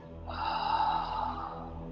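A long, breathy exhale is taken during a guided relaxation exercise. It rises softly, holds as a steady airy rush for about a second, then fades over a faint low, constant background drone.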